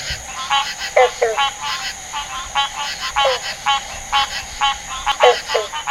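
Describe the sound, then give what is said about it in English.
Green frogs call in chorus, with many twangy, banjo-like plucked notes repeating in an irregular rhythm at moderate loudness. “The green frog, freaking cool, especially when they go into chorus. So I'm going to play that for you so you can hear”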